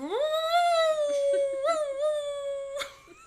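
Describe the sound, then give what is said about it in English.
A sleeping dog howls with its mouth closed: one long, tonal, nasal whine that holds a steady pitch for about three seconds, with small wobbles, and fades at the end. “She's never howled awake as a awake dog. She was sleeping. And when she makes these noises when she's sleeping, she doesn't open her mouth.”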